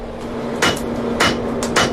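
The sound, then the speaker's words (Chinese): A hammer strikes while forging metal fittings for a horse saddle, giving a few sharp, ringing clanks at irregular intervals over a steady low hum, with no voices. “之后在一锤锤锻打中完成配件的制作”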